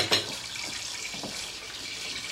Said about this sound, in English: Marion brings her plate in as he fills the kettle.